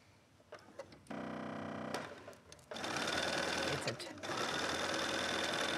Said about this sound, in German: Fängst du an, mit Zickzack zu nähen?